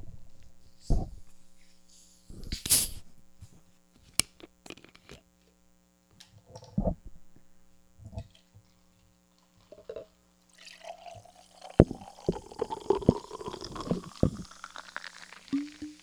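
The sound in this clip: Soda cans are cracked open with a sharp hissing crack, followed by scattered clicks and knocks and a later stretch of sustained fizzing, all faint over a low steady hum.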